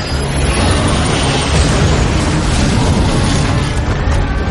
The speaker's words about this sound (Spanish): Escupe fuego azul derribando parte de la muralla.